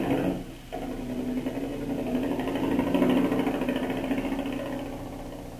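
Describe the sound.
A motor running: a steady, mid-pitched droning hum with a buzzing edge. It holds an even level and swells slightly partway through, with no voices over it.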